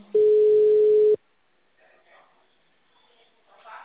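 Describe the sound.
A telephone tone sounds while a call is being placed: one loud, steady, unbroken tone lasting about a second that stops abruptly. Faint, muffled voices follow.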